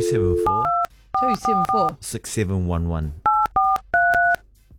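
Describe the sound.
Telephone keypad dialing tones, with steady two-note beeps in several quick runs and a voice speaking in the gaps between them.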